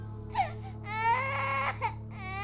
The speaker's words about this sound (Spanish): Nunca antes había visto a una niña llorar tan desconsoladamente, y menos aún en un hospital abandonado.